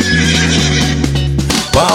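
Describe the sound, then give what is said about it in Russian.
A horse whinny is used as a sound effect in an upbeat dance pop song. The brief, loud neigh rings out over a steady music backing. “Из тюленя превращаюсь я в грациозного коня.”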